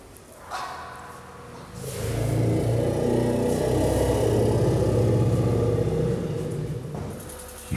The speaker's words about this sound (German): Wenn einem ein Kettenfahrzeug ins Wohnzimmer fährt, bleibt doch keiner ruhig. Ja klar, für die ist das jetzt eine Aufregung, weil das Gerät jetzt da reinkommt